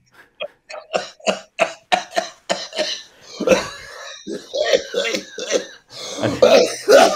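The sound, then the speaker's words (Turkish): Repeated coughing and throat clearing from someone with something caught in the throat: a long run of short, sharp bursts in quick rhythm, followed by talking. “Gırtlağıma bir şey takıldı da çok pardon.”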